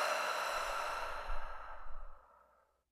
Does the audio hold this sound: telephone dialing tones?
no